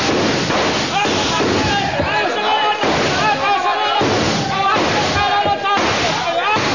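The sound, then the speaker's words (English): A volley of rifle fire in a radio-drama battle scene: several loud gunshot bursts crack through a dense, continuous wash of shouting voices. “Your stations, men! Your stations! Ready? Aim! Fire!”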